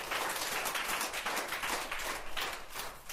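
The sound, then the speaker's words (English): Children clapping together at a school, a faint, fairly rhythmic patter of many small hands that carries on throughout. “Clap for him.”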